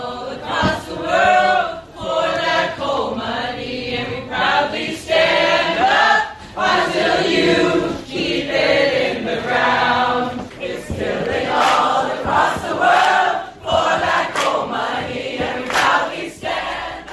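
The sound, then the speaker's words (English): Dozens of audience members at a panel of American energy executives promoting fossil fuels rise and sing together in protest. The loud, sustained group song rolls on in long phrases, broken only by brief breaths. “But as they spoke of clean and efficient fossil fuels, dozens in the audience rose to sing in opposition.”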